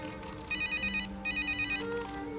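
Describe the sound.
A telephone rings with two bursts of bright, warbling electronic tone. Each burst lasts about half a second, with a short gap between them, over a low steady background hum.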